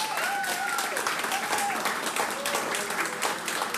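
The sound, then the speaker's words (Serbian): An audience applauds after a concert with a sustained, even wash of clapping. Voices rise faintly above the applause. “Zaslužili su još jedan veliki aplauz.”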